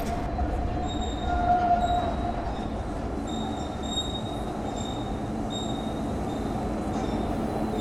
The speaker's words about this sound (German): Jetzt sind die ganzen Autos verschwunden und es fährt nun eine U-Bahn.